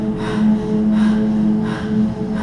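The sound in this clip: Heavy, forceful breathing in rhythmic surges over a steady low tonal hum, with no talk.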